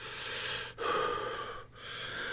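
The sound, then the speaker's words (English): A man takes a few deep breaths in close succession, each a long, airy rush of air separated by brief pauses. “He sucked a couple of deep breaths to steady his voice.”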